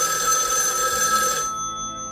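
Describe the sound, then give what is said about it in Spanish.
A telephone rings for an incoming call with a loud, continuous, high trilling bell that stops partway through and fades out. “Bueno, parece que tenemos una llamada.”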